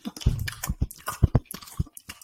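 Close-up chewing of a burger with a sesame seed bun: moist, squelchy bites and soft crunches in an irregular rhythm, with many mouth clicks and smacks.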